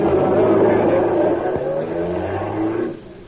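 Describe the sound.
A car engine revs and accelerates, a loud, steady low drone with layered harmonic tones that climb in the middle, then drops away near the end.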